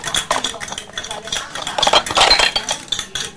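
Pots and utensils clatter as a child cooks, with many quick metallic clinks and scrapes arriving in irregular bursts.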